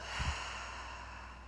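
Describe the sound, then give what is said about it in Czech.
A deep exhale through the open mouth after a held breath in a guided aroma meditation, a soft, breathy whoosh lasting over a second. “Na chvilinku zadržíme dech, otevřeme ústa a vydechneme pusu.”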